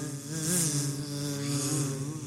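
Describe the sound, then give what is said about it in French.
A mosquito buzzes in a steady, continuous whine, a night-time pest droning alone with a slight wavering in pitch. “Aïe, sale bête! Tout petit, comme ça. Oh là là, les moustiques!”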